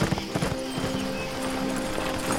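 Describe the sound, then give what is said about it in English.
Horse hooves clip-clopping in a steady rhythm as a rider rides away from a graveside, many quick hoof beats at an even, moderate loudness. “Then, at last, he mounted Riv and left”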